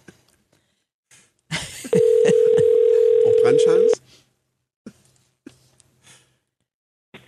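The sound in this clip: A single steady ringback tone on an outgoing telephone call, a mid-pitched hum lasting about two seconds, with soft rustling and brief voice sounds before it and a few quiet bursts after.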